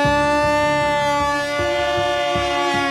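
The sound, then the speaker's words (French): Horn sounded to signal the start of a driven wild boar hunt: one loud, sustained, steady-pitched tone lasting the whole clip, with a faint throbbing low undertone. “Ok, Denis, vous pouvez démarrer. Je corne, vous cornez de votre côté.”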